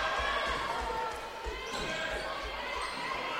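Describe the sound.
A basketball is dribbled on the court in the closing seconds of a tight game: a steady series of dull, low thumps under loud, continuous crowd noise.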